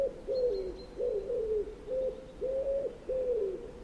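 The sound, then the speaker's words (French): Common wood pigeon cooing, the bird familiar in European cities: a rhythmic run of soft, low, hollow coos repeated several times with short pauses between phrases. “Prenez un oiseau très connu des grandes villes européennes, le pigeon ramier.”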